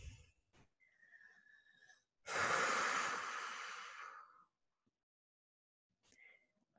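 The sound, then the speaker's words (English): A deep breath drawn in slowly, a loud, airy inhalation lasting about two seconds and heard alone, with faint mouth clicks before and after. “it literally feels as simple as taking a deep breath in”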